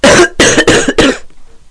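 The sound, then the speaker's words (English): A loud, harsh fit of coughing that brings up phlegm, several forceful, raspy bursts in quick succession, followed by a brief quiet tail. “I just coughed, like so.”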